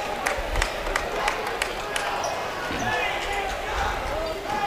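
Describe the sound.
Basketball bouncing as a player prepares to shoot three free throws after a foul, with several sharp, spaced bounces over steady crowd noise and talking voices.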